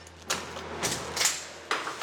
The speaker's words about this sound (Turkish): Kapı çok kolay bir şekilde yerinden çıktı.